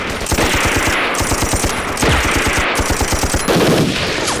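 Heavy machine gun fire in a combat setting: sustained, loud, rapid bursts of rattling shots with sharp repetitive cracks and barely a pause throughout, without voices.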